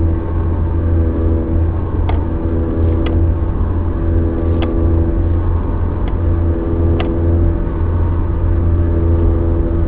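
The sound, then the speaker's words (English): Roar from a bad front wheel bearing on a Honda Accord as the car zigzags back and forth, a loud, continuous low drone with a whirring layer throughout and a few faint ticks on top. “Now, the way that you can definitely tell that it's a wheel bearing, I'm going to zigzag back and forth, and you can hear the noise will change as I zigzag back and forth.”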